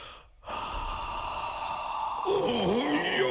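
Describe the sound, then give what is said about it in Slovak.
Forceful blowing of breath, performed by a voice in a children's fairy tale: a long sustained breathy rush that starts abruptly and holds steady for nearly three seconds, with a faint wavering tone joining near the end. “No tak skúsim na teba pravdou dýchnuť.”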